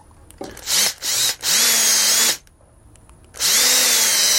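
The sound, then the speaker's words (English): A power drill bores holes, whirring in several separate bursts with short pauses between them. The motor whines up as each burst begins. Nobody talks. “Okay, two holes are drilled.”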